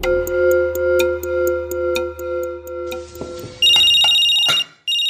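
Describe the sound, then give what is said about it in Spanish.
A mobile phone's electronic ringtone repeats loudly as a steady series of short, evenly spaced tones, then gives way to a brighter, sustained high chirp that stops abruptly. “Yo le he dicho que yo le compré ese celular es para que hablemos los dos, no para que la anden llamando a toda hora.”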